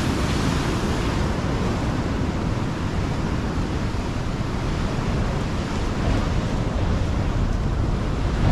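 Ocean waves and wind on the shore make a steady, dense roar that holds at an even loudness throughout, with no distinct breakers and no voices.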